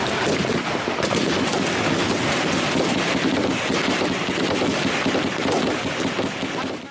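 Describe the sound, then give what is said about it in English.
Dense gunfire from battle footage of fighters pushing across mountains in Yemen, with RPG fire, small arms and heavy machine guns: a loud, continuous crackle of rapid overlapping shots that barely lets up throughout. “RPG fire, small arms fire, technicals that they used, heavy machine guns.”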